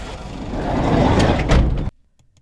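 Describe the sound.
A minibus, driven house to house in Redfern, Sydney, to pick up local children, gives a loud, sustained rushing rumble with rattling that builds steadily and then cuts off abruptly into near silence.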